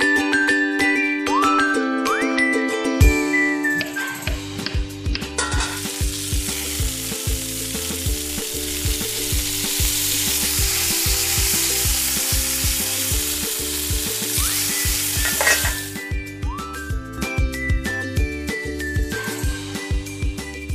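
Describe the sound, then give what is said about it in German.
Zucchini, diced ham and a batter fry in a pan with a loud, steady sizzle that swells through the middle stretch and eases toward the end, while music plays throughout. “Sie hat Zucchini in die Pfanne geworfen, Schinkenwürfel in die Pfanne geworfen, einen Teig.”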